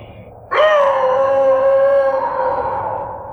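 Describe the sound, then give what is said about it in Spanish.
A long howl from a wolf-like creature: one sustained, harmonic cry that swells in suddenly, holds a steady pitch, then slowly fades over about three seconds. “Y me estremeció mi propio aullido porque no grité, aullé.”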